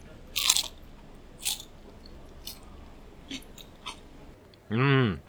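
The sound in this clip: Crunchy bites into crispy fried food: one loud first crunch, then several fainter crunching chews spaced about a second apart, ending with a short voiced murmur.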